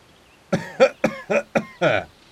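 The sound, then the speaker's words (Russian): A man coughs near the ruins of a house: six rough, fairly loud coughs in quick succession with short gaps between them, and no other voices. “Кашлял человек, их незримый сосед, который находился где-то неподалеку от развалин дома.”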